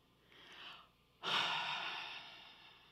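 A slow deep breath: a soft inhale, then a longer and louder breathy exhale that starts sharply and gradually fades, with no talking.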